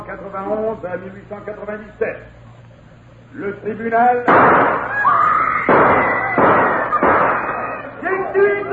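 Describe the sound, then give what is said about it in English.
Gunshots in a courtroom: a few loud, sharp bursts break in after calm talk, and loud, rough noise continues between and after them. “Gunshots have thrown the courtroom into turmoil.”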